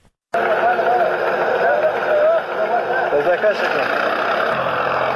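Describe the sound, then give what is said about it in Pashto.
A tractor ploughing up poppy fields in Nawzad district, Helmand: after a brief silence, a loud engine drone starts abruptly and runs on steadily, with faint voices over it. “دا د هلمند په نوزاد ولسوالۍ کې پر ټراکتور د کوکنارو د کښت اړولو غږونه دي چې د طالبانو سیمه ییزې ادارې له رسنیو سره شریک کړي دي”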